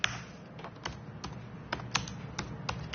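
Quiet, brisk typing on a computer keyboard, with irregular keystrokes clicking one after another.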